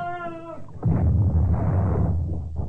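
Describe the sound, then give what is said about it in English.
A sailing warship fires a cannon broadside at sea, a heavy low booming roar that swells and rolls on for a couple of seconds after a brief high wavering tone. “Keep the gunners firing, Mr. Jackson. We've got both of them. Their gun bolts, wonderful. Took them by surprise. Haven't even answered our broadside yet.”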